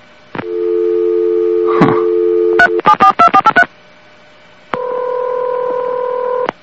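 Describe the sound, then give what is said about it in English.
A landline dial tone hums steadily after the phone is hung up, then a quick run of touch-tone dialing beeps, a short silence, and another steady two-note tone. “Did you hang up by accident or because you're sick of hearing about Katie?”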